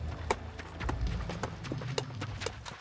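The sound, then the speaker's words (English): Horse hooves clip-clop as a rider moves along a riverbed, with many hoof strikes in a steady, uneven rhythm over a low rumbling noise bed. “Miles upriver, Lopez rode, leaning out from his saddle, studying the riverbed intently.”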